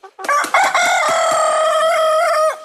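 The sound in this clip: A rooster crows alone in one loud, long, harmonic call. It opens with a few short rising notes, then holds a sustained, slightly wavering crow for over two seconds before breaking off.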